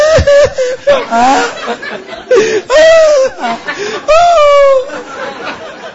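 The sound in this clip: A man's voice imitates someone weeping loudly during late-night prayer, with a few drawn-out, wavering sobbing wails. They are loud and quaver in pitch, with short breaks between the phrases.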